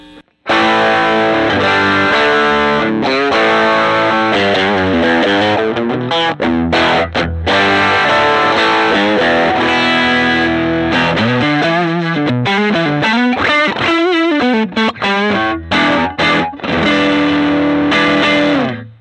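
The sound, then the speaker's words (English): Overdriven electric guitar on the bridge pickup, played through the amp's stock speaker: a long, continuous run of loud, gritty chords and single-note lines with sustained tones, ending in a few choppy stabs. “Let me hit the overdrive first. On the stock speaker, sounds like this, bridge first.”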